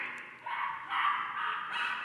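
A puppy yipping in a backyard gives a quick run of high-pitched yips and whimpery barks that blend into one another, moderately loud with no voices.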